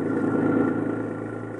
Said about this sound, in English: The Ridgeway Circus was set up at the edge of town, so we drove out there together.